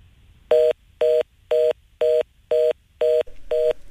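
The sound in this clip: Telephone keypad tones dialing out to a caller: seven evenly spaced beeps, each about a fifth of a second long, crisp and steady in pitch, with faint background hiss between them and no voices.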